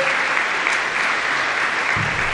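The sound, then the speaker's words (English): Audience applause for utility partners, the local water and wastewater providers, at a recognition event: full, dense clapping that stays steady and even for the whole stretch. “Let's give our utility partners a big round of applause.”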